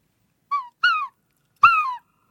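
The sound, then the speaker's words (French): Three loud, clear cries from a small flock of birds flying overhead, each a short, harmonic call sliding downward in pitch, separated by brief silences. “Un petit groupe d'oiseaux en vol furtif me surplombe, crie, me fait sursauter.”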